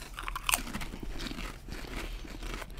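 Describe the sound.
A salt and vinegar potato chip crunches between the teeth, starting with a sharp bite and continuing as dense, crackly chewing throughout, with no talking.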